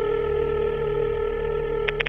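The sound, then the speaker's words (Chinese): A telephone number is dialed at midnight: three short keypad tones come in quick succession near the end, after a long, steady low tone and hum, fairly faint overall. “明仔等到半夜十二点就拨打这个号码”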